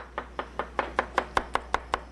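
Knife chopping garlic on a board, eleven crisp, evenly spaced chops in a steady rhythm that grow slightly louder toward the end, with no voices.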